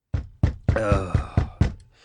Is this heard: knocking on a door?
yes